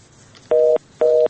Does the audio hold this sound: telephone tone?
yes